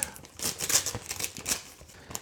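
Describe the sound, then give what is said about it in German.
Packaging around a foil balloon being torn open by hand: several quick, fairly faint crinkling and ripping bursts of plastic in an uneven rhythm. “So, ich reiß das jetzt mal auf. Zack, zack, zack.”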